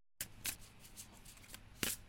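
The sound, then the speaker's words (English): A deck of cards is shuffled until cards fall out, heard as faint papery riffles and soft taps in a few short bursts, with a louder burst near the end and no talk. “Give me a second because I allow them to fall out the deck.”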